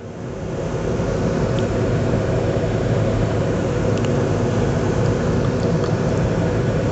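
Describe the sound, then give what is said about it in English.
A car driving on a concrete freeway: a loud, steady rumble of road and tire noise that swells in at the start and then holds constant, with no voices. “because listen, what am I doing? I'm driving on the concrete freeway from place to place.”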